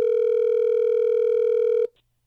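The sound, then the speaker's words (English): A telephone tone sounds while a call is being placed: one loud, continuous, steady-pitched tone that holds for almost two seconds and then cuts off abruptly. “Are you ready for us to get him on the phone”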